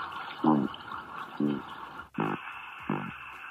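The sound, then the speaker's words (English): Cod producing sounds with their swim bladders. Four short, low knocking grunts are spaced roughly evenly over a steady hiss. “The sounds cod make with their swim bladders appear to have regional accents.”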